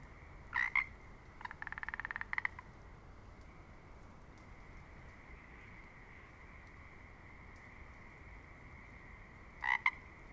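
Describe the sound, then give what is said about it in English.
Pacific chorus frogs croak in the Hoh rainforest of Olympic National Park: a few short croaks and a rapid pulsed trill early on, then a final pair of calls near the end, all over the steady rush of the Hoh River. “We're in the Ho rainforest and listening to individual Pacific chorus frogs.”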